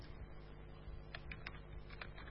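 Soft clicking of a computer keyboard as code is typed, quiet and sparse at first and then a few clustered keystrokes, over a low steady hum.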